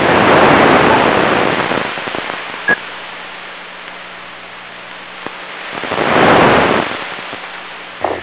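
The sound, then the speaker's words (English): Meltwater runs down a street into a drain, making a steady, loud rushing hiss that thins in the middle and swells again toward the end, with a faint low hum underneath. “Some water moving down the street. It's finding its way to the drain.”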